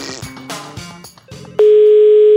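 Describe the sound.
A telephone dial tone follows a dropped call. It cuts in abruptly after a short stretch of mixed tonal sound, then holds as one loud, steady, unbroken pitch to the end.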